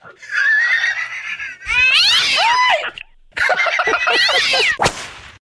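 Cats meowing and yowling in a few long, loud bursts of high, wavering cries that bend up and down in pitch, ending with a sharp squall, with no talk over them.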